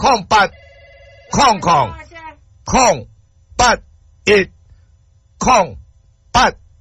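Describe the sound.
A telephone bell rings briefly with a steady, layered tone near the start, set among loud, clipped bursts of talk that recur throughout.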